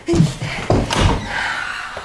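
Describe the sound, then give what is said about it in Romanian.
A door is closed, giving a short, solid thunk with a dull low-pitched body and a brief fading tail, heard clearly and fairly loud. “E ușa deschisă. Intră boarea nopții. Nu simți? Închide ușa”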